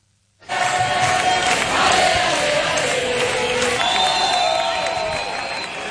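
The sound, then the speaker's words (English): Loud protest crowd in Spain demonstrating over the housing crisis: a dense, continuous roar of many voices with shouting and cheering that begins abruptly after a brief silence and holds steady throughout. “So that's the sound of days of protests across Spain over the country's housing crisis.”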